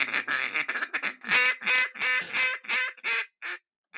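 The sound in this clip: Raspy, nasal quacking from a Bustin' Tail Calls duck call comes in a quick, choppy run of many notes, then thins to a few quieter, spaced quacks at the end.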